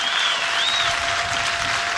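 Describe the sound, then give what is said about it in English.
A baseball crowd on its feet in the ninth inning claps steadily with dense, continuous applause. A thin, high whistle rises briefly over the clapping early on. “Crowd to their feet to help Jalen here in the 9th.”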